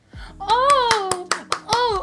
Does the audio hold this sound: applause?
yes

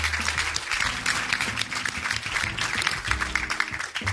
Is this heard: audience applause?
yes

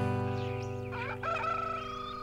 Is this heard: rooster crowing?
yes

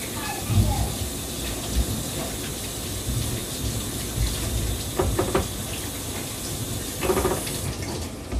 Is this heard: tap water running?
yes

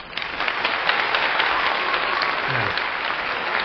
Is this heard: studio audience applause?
yes

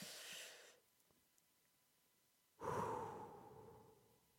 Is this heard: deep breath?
yes

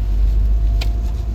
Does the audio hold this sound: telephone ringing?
no

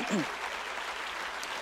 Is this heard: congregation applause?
yes

